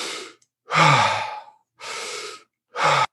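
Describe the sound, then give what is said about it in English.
Deep breathing through the mouth, loud airy rushes in a few separate strokes divided by brief silent gaps, with no talk. “You can breathe in through your mouth, like”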